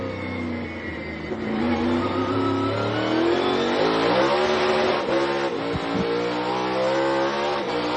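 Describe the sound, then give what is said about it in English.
Stock cars roar through a corner on the Sonoma road course, their loud engines revving continuously as the pitch swells and wavers while the cars work through the turn. No voices are heard. “Through turn 12, and Martin masters Sonoma.”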